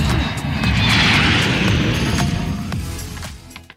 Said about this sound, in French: votre commandant de bord, asseyez-vous confortablement dans votre siège de direction ou destination lointaine, l'Europe. Attention au décollage.